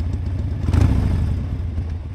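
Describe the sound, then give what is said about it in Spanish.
A Harley-Davidson motorcycle engine gives a steady, low, throaty rumble that swells briefly early on, then carries on as a continuous rough drone. “Y aparece el gran exorcista en su moto Harley Davidson.”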